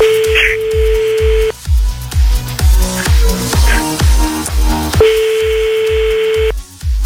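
Telephone tones as a number is dialed for a prank phone call: a long, steady electronic tone sounds twice with a pause between, over a loud, rhythmic thumping music beat.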